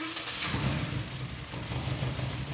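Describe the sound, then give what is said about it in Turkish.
An engine idles on its first start after being worked on and filled with multi-purpose oil. The idle is rough and loose, a steady, fairly quiet mid-pitched rumble that wavers slightly throughout, with no voices. “İlk defa çalıştırıyorum. Motoru hallettim ama boştayken biraz sorun varmış gibi hissediyorum. Sanki çok gevşek.”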